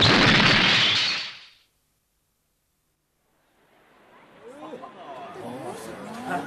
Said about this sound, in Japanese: 爆発したぜ、おい。 本当だって、エンジンが飛んでっちまったのさ、花火みてえに。